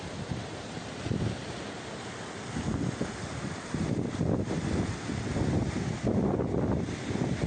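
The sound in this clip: Flowing water makes a steady, rushing wash of noise that swells and eases, with wind buffeting the microphone and no voices.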